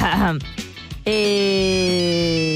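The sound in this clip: Ring tone of an outgoing phone call: after a brief stretch of voices, a single steady, sustained electronic tone starts abruptly and continues evenly to the end.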